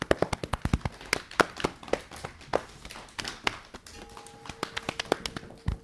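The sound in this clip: Many light, uneven taps on one's own body during a stretching and muscle-tensing exercise. Quick, irregular dull pats come in clusters throughout, fairly soft and with no talk.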